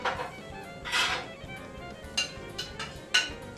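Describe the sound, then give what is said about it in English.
A spoon stirs a pot of fish soup, making several brief scraping and clinking strokes spread unevenly over a low, steady background hiss. “Give it a stir.”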